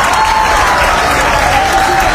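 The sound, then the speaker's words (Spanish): Crowd applauding at an announcement by the president of Ecuador about cutting the tax on beer during the World Cup, a loud, unbroken clatter of many hands clapping at constant level throughout. “ya, señoras y señores, la gente aplaude.”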